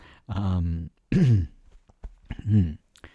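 Someone clears their throat with a catch in it: three loud, gravelly rasping bursts separated by short pauses.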